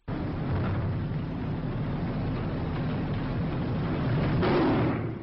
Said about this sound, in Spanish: vamos a escuchar si quieres una que es sobre bomba, un ruido de bombas, que es este.